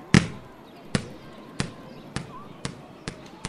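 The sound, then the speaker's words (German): A ball thrown up in a game without rules bounces seven times, each a sharp, hollow thud, with the gaps between bounces growing slightly shorter. “Ja klar, ich werf den Ball einfach hoch.”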